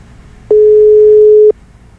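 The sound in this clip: A single telephone ringback tone on an outgoing call: a steady, mid-pitched beep lasting about one second. It starts and stops abruptly over faint background hiss.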